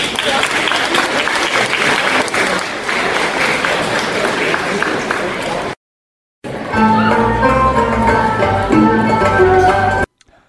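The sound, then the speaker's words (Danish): Loud, sustained applause for three belly dancers from Aalborg, a dense wash of clapping that stops abruptly, followed by a short silence before music begins. “velkommen til tre dejlige mavedansere fra Aalborg. Så værsgo og giv dem lige en hånd.”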